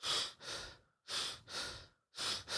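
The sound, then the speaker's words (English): Quick, shallow breaths through the mouth, in three rounds of breathy in-and-out pairs, each airy and hissing, separated by brief silences. “just take a few shallow, kind of quick breaths through your mouth without really thinking about it too much”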